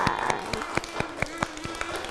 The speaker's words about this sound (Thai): เด็กๆปรบมือให้ตัวเองหน่อยค่ะ